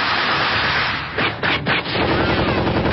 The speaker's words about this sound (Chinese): 重机枪、小钢炮疯狂的向饶平如这边打过来。